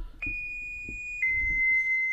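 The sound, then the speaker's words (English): Electronic beeps from an online test video: a clean, steady high pure tone holds for about a second, then switches to a slightly lower sustained tone. The tones are loud and stand nearly alone. “So this is WebDriver Torso. These beeps,”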